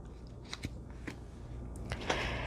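Tarot cards being cut into two piles, heard as a few brief, soft papery snaps and slides scattered across a quiet stretch with no talk.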